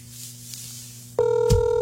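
A telephone ringing as a call is placed. A low, quiet hiss gives way to an abrupt, steady electronic ringing tone that starts near the end and holds at an even level.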